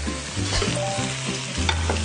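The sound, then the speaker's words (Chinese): Frying in a pan of oil with ginger and garlic, with skin-on meat rendering out its fat: a steady, continuous sizzle with stirring scrapes, no voices. “一边煎，然后让它这种姜和蒜的味道就出来了。”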